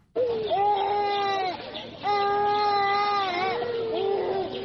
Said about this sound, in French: Des enfants pleurent après avoir reçu une piqûre dans la cuisse.